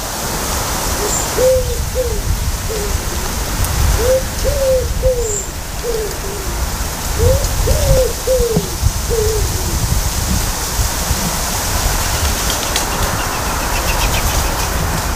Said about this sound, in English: It's rather lovely, isn't it? Listening to the wood pigeons there.